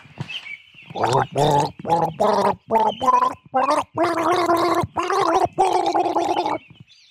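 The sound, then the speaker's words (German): A man gargles flower water, turning the bubbling into a melody: a string of loud, short gurgling phrases at shifting pitches, separated by brief pauses. “Hier kommt unser Virtuose mit dem Blumenwasser und er gurgelt für Sie einen Lamour-Hatscha.”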